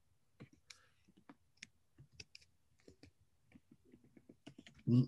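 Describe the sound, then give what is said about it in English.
Quiet keyboard typing while entering a Bible passage: sparse, irregular clicks and taps with pauses between them, ending in a louder dull thump. “Type it in. You know, I have to type it in because it's like, oh, I can't see.”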